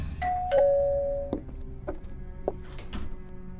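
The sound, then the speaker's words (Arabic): A doorbell rings in a home with a clear two-tone chime, the second note held longer, followed by a few soft thumps. “وكنت لوحدي في البيت لما جرس الباب رن”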